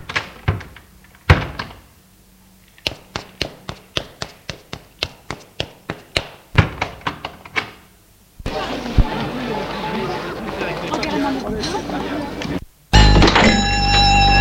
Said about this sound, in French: Voilà l'argent. Refermons vite l'armoire et sortons.